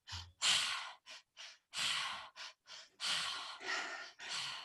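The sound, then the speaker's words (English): Breathing exercise with the breath drawn into the belly and chest and let out through the mouth: a series of airy, sighing breaths, short sniffs alternating with longer, loud exhales, separated by brief pauses. “So we want to bring the breath into the belly, up into the chest, and out through the mouth. So it sounds like this.”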